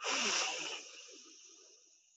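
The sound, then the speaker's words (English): A single breath drawn in through one nostril during a breathing exercise: a soft, airy hiss that is strongest at the start and then thins out and fades over about two seconds. “Seal off the other nostril Release the thumb, exhale. And breathe in.”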